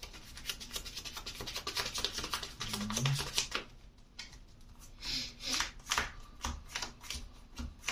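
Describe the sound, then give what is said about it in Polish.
Cards are drawn in a game of NISEI, producing many brisk papery slides and rubs of card against card in a steady, uneven rustle, with short pauses between strokes. “I teraz dobiorę jeszcze na koniec cztery karty.”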